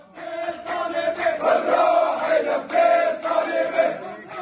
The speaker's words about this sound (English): That's the sound of demonstrators marching in a neighbourhood of Damascus, chanting, "We will sacrifice our souls for our cross."